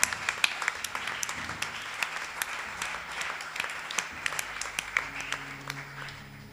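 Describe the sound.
Applause from a church audience standing during a youth gathering service: fairly faint, steady rattling claps with scattered sharper hand strikes, continuing throughout.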